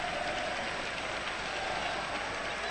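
Football fans in a stadium applaud a player being substituted, a dense, steady wash of clapping and crowd noise that holds at an even level from start to finish.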